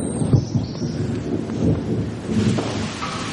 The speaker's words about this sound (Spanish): La lluvia cae fuera de muy intenso y ella se asoma.